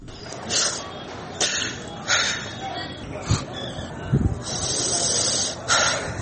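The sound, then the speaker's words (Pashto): Grief-stricken sobbing of an elderly man from a village in Haska Mena, mourning after a bombing that killed dozens. Ragged, breathy sobs and gasps come in irregular bursts over a noisy background. “دا د هسکې مینې د جودري د کلي د یو سپینګیري د سلګو غږ دی.”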